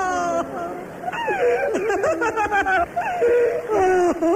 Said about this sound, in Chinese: 大人一哭小孩也吓哭了。